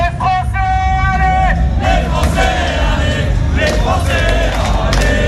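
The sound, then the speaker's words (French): Loud supporters of the French team, Les Bleus, cheer and chant together in a sustained sung chant with swelling shouts and whoops. “En attendant, les Bleus entendront peut-être les encouragements de leurs supporters les plus fidèles.”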